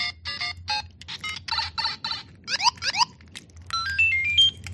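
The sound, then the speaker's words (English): A keychain toy plays Nintendo video game sound effects: rapid buzzy electronic bleeps in quick bursts, then two quick upward-swooping chimes, and finally a rising run of stepped synthetic tones. “awesome keychain things that have Nintendo sounds like this.”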